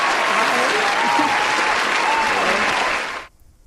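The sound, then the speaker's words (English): An audience applauds to welcome a guest, with dense, even clapping that holds steady for about three seconds and then stops abruptly. “Okay, so let's give it all up for Kiyoshilia.”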